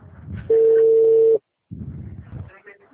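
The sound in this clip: A telephone tone sounds after a dropped call: one steady, loud, unbroken tone under a second long, with people talking just before and after it.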